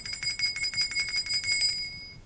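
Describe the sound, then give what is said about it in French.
A school bell rings as the school day ends: a fast, high-pitched metallic trill of many rapid strikes, fairly faint, ending with a short fading ring. “Enfin, la cloche sonne.”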